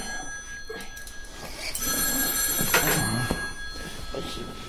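A shrill telephone bell rings in a French comedy scene, starting partway through and holding a steady, bright trill to the end over faint background sounds.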